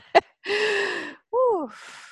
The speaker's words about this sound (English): I just want to take a minute and take a deep breath, everyone, for a second.